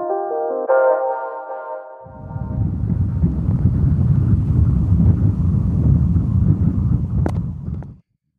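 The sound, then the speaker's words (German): Strong crosswind buffets the microphone on a bike ride, a loud, low, rumbling roar that runs for about six seconds after a brief tonal sound, then cuts off abruptly. “So, ja, eine gemütliche Fahrt ist was anderes, gell? Mit dem Radl daher. Es sind nur 5, irgendwas Kilometer, habe ich gesehen. Mit strammen Seitenwind.”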